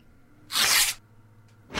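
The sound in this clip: A paper envelope is handled and torn open with one loud, half-second ripping burst over faint rustling, followed by two shorter, quieter paper sounds near the end.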